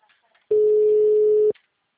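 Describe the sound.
A telephone ringback tone of an unanswered call: one pure, steady mid-pitched beep lasting about a second, loud and alone between faint background sounds.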